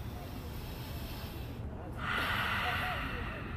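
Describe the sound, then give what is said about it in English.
A mouth exhale during a breathing exercise: a steady, breathy hiss swells in over the last second and a half and holds to the end, above a low background rumble with no talk. “we're gonna fog it up with our breath. So inhale. Exhale through the mouth. Two more like that.”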